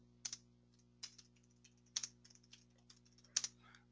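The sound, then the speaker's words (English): Keys clack on a computer keyboard as the app name Perch Small Business is typed in, a quick uneven run of crisp clicks with a few louder strikes standing out over a low steady hum. “The actual app is called Perch Small Business. I'm going to type this in here.”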